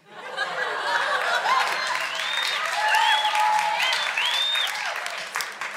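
A theatre audience breaks into applause at a line comparing the Constitution to a Harry Potter horcrux; the clapping swells in quickly and holds as a dense, steady roar until the end.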